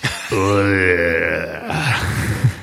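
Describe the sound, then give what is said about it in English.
A voice imitates the big, deep groan of a giant Goliath creature: a long, drawn-out, low voiced moan that breaks into a rougher, breathy rasping tail. “He lets out a big groan. What does that sound like?”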